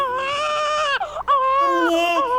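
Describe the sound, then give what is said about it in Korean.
A newborn baby cries in loud, high wailing bursts. A short gap after the first wail breaks into a wavering sound, and then the crying resumes strongly. “갓 태어난 조카 이산의 울음소리만 듣고”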